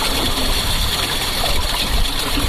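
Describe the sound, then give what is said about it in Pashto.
Water flows steadily through a drip irrigation system used to save water on farmland. A constant, even hiss and trickle continues with no breaks. “دغه غږ د اوبو څاڅکي سیستم دی چې د انرژي یا اوبو د ضایعاتو د مخنیوي لپاره یو مرجنه چاره بلل کیږي.”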